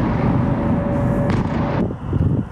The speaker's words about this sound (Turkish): Patlamalar ardı ardına geldi.